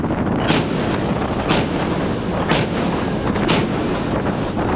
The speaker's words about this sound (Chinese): 主炮系统进行临战准备。 接收目指，一组四发，放。